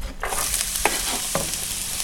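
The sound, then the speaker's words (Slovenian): Chopped onion sizzles in hot butter in a pan, giving a steady, bright frying hiss throughout. A few sharp clinks of stirring cut through the sizzle. “In sicer sem zdaj segrel maslo v ponvi. In sedaj bom pa dodal čebulo.”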